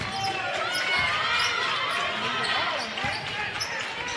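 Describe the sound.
A basketball is dribbled on a court during a women's game, the bounces faint and soft beneath continuous crowd noise.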